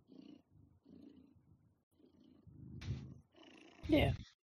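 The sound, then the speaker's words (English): A cat purring in low, rumbling stretches with short breaks between them, followed by two louder, harsher bursts near the end. “Loki, relax. God. He is. That's why he's purring.”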